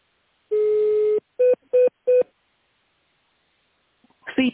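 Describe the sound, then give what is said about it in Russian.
Touch-tone dialing of an extension number on a company phone line: one longer tone followed by three short, evenly spaced electronic beeps, clear and fairly loud, then a brief quiet stretch. “Наберите в тональном режиме внутренний номер вызываемого абонента, либо дождитесь ответа секретаря.”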